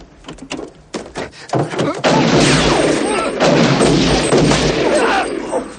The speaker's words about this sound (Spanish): Comienza un fuego cruzado.